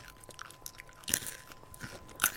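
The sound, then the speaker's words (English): Reese's Pieces candy is crunched and chewed right into microphones. Crisp bites and grinding chews repeat irregularly, with two sharper, louder crunches standing out among the softer mastication. “We're eating Reese's Pieces into microphones.”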